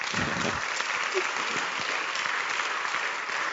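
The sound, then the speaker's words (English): Audience applause, a dense, steady wash of many hands clapping that holds at an even level for the whole stretch with no individual claps standing out. “thank you for the claps.”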